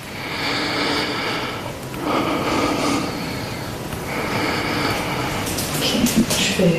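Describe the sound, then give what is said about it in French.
Deep open-mouthed breathing from a patient during lung auscultation, a few long, airy breaths following one another at a slow, steady pace. “je te laisse déjà faire l'auscultation pulmonaire complète. Hein. Ouais. Ok. Alors, je voulais juste respirer profondément la bouche ouverte.”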